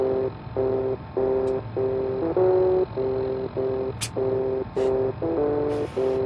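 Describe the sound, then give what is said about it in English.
Retro electronic tones from a simple adventure minigame played on an in-game computer terminal in a video game: a looping melody of flat, buzzy beeps in short even phrases, with a few brief high hissing bursts. “But there's also a Grognak video game in Fallout 4 that you can play on certain computers. Grognak and the Ruby Ruins, which sounds like this.”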